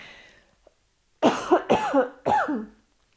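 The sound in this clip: Coughing fit from a person with pollen allergy: a few harsh, throaty coughs in quick succession after a brief quiet pause. They are loud and stand alone with no speech.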